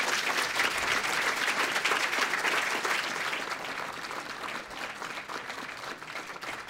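An audience at the Young America's Foundation applauds to welcome Congressman Tom McClintock with loud, sustained clapping that stays full for the first few seconds, then eases slightly and continues as a steady patter.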